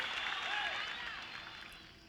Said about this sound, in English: Aplauso, aplauso.